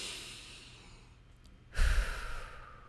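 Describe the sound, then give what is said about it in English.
A deep breath taken as a pause: a soft, airy rush of breath fades away, then a louder, gusty, sigh-like exhale bursts in past the midpoint and trails off. “I want you to pause and take a deep breath”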